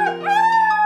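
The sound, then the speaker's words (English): A wolf howls in one sustained, harmonic-rich tone that wavers only slightly in pitch and holds steady at a moderate level for just under a second. “does anybody else hear a wolf howling?”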